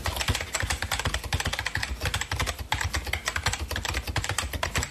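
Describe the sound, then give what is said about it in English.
Rapid typing on a computer keyboard: many crisp keystroke clicks in a fast, uneven rhythm continue steadily throughout, with brief pauses between bursts and no voices. “Let me finish this email. Typing.”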